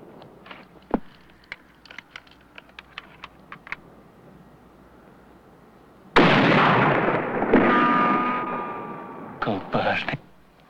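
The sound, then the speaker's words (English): A loud rifle shot from a distant rifleman, its bullet striking dust, bursts out after faint, scattered clicking ticks and rolls into a long, noisy tail, with a couple of sharp bursts near the end. “A bullet from the distant rifleman hits the dust, only inches from Charmer.”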